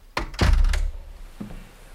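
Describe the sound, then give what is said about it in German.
A door being closed in an office: a short sharp click, then a heavy, low thud, followed moments later by a faint softer knock as it settles. “Bitte, schließ die Tür.”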